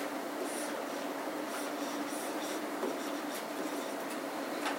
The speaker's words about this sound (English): And I'll just write no.